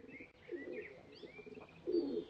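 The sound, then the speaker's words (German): Pigeons cooing near trash bins by a house entrance, where they are being lured with bread. Two louder, low, rounded coo bursts stand out, with softer cooing and faint higher chirps between them. “Der unsichtbare Pumuckl mit dem durchaus sichtbaren Brot in der Hand postierte sich bei den Aschentonnen und versuchte von dort aus, die Tauben herbeizulocken.”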